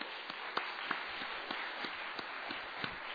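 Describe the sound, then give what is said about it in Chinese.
An audience at a meeting applauds to welcome newcomers, a faint, steady patter of dense clapping with a few sharper claps standing out. “我哋为到今日新朋友，我哋鼓掌欢迎佢哋”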